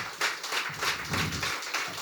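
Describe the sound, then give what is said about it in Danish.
Audience applause greeting a mayor as he is welcomed at a live show in Greve: a short, dense burst of clapping that stays steady and fairly loud throughout. “det er med ingen andre end øh, ja, en borgmester. Giv ham en hånd.”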